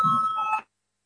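A bell rung in a parliamentary chamber to call a vote: a single bright, steady electronic ring with a clear tone that lasts just over half a second, then cuts off abruptly into silence.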